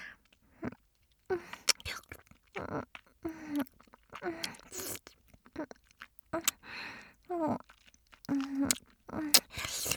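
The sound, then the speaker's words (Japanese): Saliva gathering in a mouth, heard as many quiet wet clicks, smacks and slurps in irregular bursts separated by short silences, close and intimate with no voice over them. “ちょっとだけ待ってくださいね。今唾溜めますから。”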